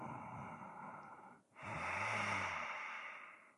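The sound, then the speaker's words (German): Gentle Ujjayi breathing during yoga, a soft throaty hiss in two long phases with a short pause between, the second breath louder and fuller, no speech. “Sanfter Ujjayi-Klang dabei.”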